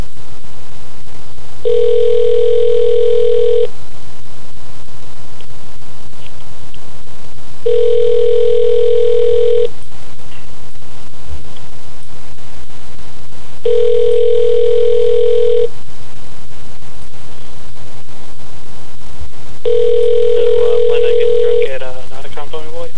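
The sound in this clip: A telephone sounds a call tone while a number is being dialed: four long, steady tones of about two seconds each, evenly spaced with quiet gaps between them, over a constant low hum.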